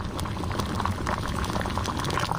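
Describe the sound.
Continuous bubbling and sizzling from a simmering pot as onion is added, a dense, steady wash of liquid crackle with no pauses and no voices.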